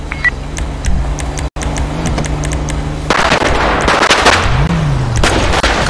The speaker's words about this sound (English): Still multiple shots being fired.